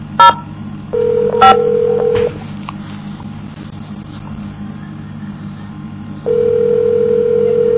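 Telephone keypad tones on a call to a tribal court's automated phone menu: two short beeps of dialed tones come with a steady electronic tone. The tone stops, then resumes near the end, over a low, constant line hum.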